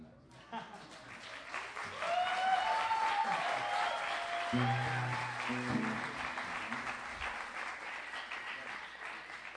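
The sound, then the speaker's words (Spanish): Applause rises from an audience at a live event where musicians are being introduced. The clapping is steady and moderate, with a few shouting voices over it early on and a low tonal hum entering partway through. “Pues es que no están aplaudiendo demasiado.”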